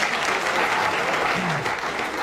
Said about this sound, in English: Thank you for applauding my wisdom.